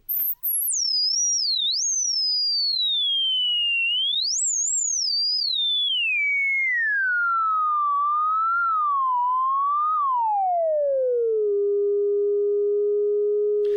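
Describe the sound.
A stock price average of 30 big firms, tracked over two weeks and turned into sound: a single loud, pure whistling tone that wobbles up and down, then slides steadily lower and settles into a long, flat low note.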